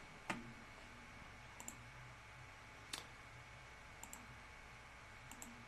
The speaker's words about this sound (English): You can click on this link right here to activate your account, which we'll do right now.